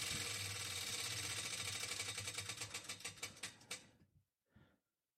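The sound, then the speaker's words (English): A prize wheel spins and clicks. Rapid mechanical ticking gradually slows into a few separate, spaced clicks and then stops, followed by one brief soft sound. The whole clip is faint. “This wheel is a conspiracy. Spin it again. Spin it again just for fun.”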